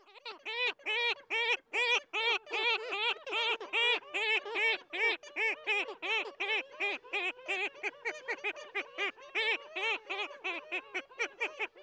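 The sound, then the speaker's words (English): A bird calling during its moan and bow display, giving a long, rhythmic series of many rapid, harmonic yelping notes that stay loud and even throughout. “It's often accompanied by this moaning call, or as part of the moan and bow display.”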